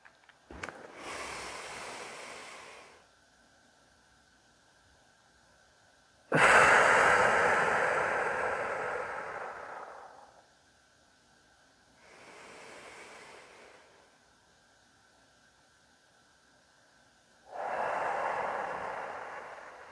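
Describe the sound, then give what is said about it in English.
Slow, deliberate breaths during a 4-7-8 breathing exercise: four long, airy breaths separated by quiet pauses, the second the longest and loudest, each swelling and fading smoothly. “Here we go. 4, 7, 8 breaths.”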